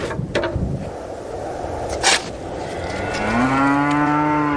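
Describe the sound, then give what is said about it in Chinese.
Cattle moo on a sparse grassland where thin livestock survive on fodder. A few brief knocks come first, then one long, loud, low moo with rich harmonics swells up and holds to the end. “瘦骨嶙峋的牛羊靠着草料勉强生存”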